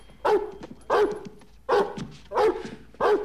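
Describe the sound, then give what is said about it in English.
A dog barks five times at even intervals, short sharp barks with quiet gaps between them. No one speaks. “That stupid dog barks at me one more time.”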